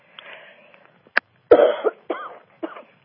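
Phlegm-clearing coughs come in a few rough, separate bursts, one short and sharp, then heavier chesty hacks with throaty rattle, each dropping back to silence between them.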